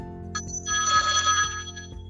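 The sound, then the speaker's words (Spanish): A telephone rings with an electronic ringtone, a bright, repeating high-pitched warble that starts in short bursts and then sustains, heard on its own without talk. “te llaman. Sí, están llamando.”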